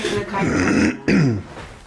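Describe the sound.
Throat clearing from a person with a lingering post-Covid throat-clearing habit: two rasping, voiced bursts separated by a brief pause, fairly loud.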